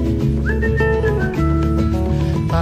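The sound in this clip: A person whistles a lively tune over band accompaniment, the clear whistled melody gliding between steady notes throughout while the instruments play underneath.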